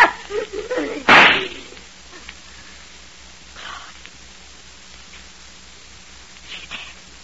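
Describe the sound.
A single gunshot in a radio drama: one loud, sharp bang right after a brief stretch of voice, followed by quiet hiss and a few faint stirrings.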